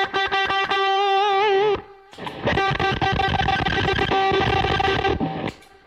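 An electric guitar runs through an overpowering distortion pedal, loud buzzing chords in two bursts split by a short pause near the middle, the first phrase ringing with a wavering sustain.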